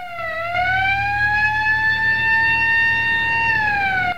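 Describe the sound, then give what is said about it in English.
An ambulance siren sounds on a city street as one loud, continuous wailing tone. It climbs slowly, holds, then drops in pitch near the end. “An ambulance rounds a corner onto a city street, flanked on both sides by buildings festooned with billboards and signs.”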